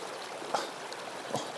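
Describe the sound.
Clear stream water flows in a steady, even rushing hiss, with a couple of slightly stronger splashy swells and no voices.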